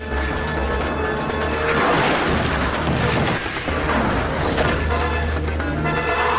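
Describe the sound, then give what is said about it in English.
Huge concrete slabs crash down in a collapsing structure, a loud, continuous rumbling roar with heavy booming impacts throughout and no voices. “As huge slabs of concrete cascade down, crushing the demon, Chandler and the boy make their getaway up the fixed ladder.”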